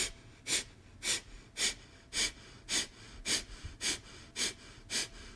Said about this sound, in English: We'll breathe in and start your exhales.